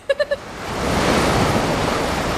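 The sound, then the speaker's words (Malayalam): A big sea wave crashes onto a beach in Goa, a broad rushing surge that swells up and holds steady and loud to the end. “ദേ നോക്കിയേ, ഒരു ഉഗ്രൻ തിര അടിച്ചു കയറി വരുന്നുണ്ട്.”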